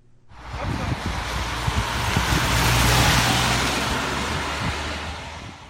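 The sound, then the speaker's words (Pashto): Cars driving fast on mountain roads at the Italy–France border in cold weather: a broad rushing roar swells to a peak midway and slowly fades, with wind-like noise throughout. “دا د فرانسې سره د ایتالیا سرحد دی او موټرې په ډېر سرعت د دې غرنۍ سیمې په سرکونو په حرکت کې دي”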